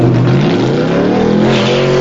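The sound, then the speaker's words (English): A car engine revs loudly and without a break, making a steady, low, harmonic drone whose pitch wavers slightly. No one speaks over it. “They both turn at the revving engine.”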